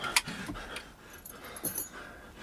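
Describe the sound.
Keys to a pair of handcuffs jingle briefly as they are handed over. A quick, bright metallic jangle comes near the start, then a fainter rattle follows, both soft and short.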